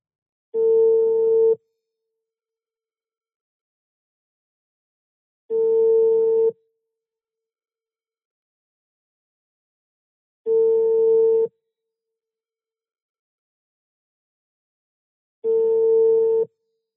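Telephone busy signal heard while calling someone back: four steady, mid-pitched tone bursts, each about a second long, separated by long, even silences.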